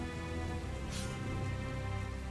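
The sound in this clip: Rain falling steadily, a heavy downpour easing toward drizzle, heard as a dense continuous hiss with a low rumble underneath and no voices.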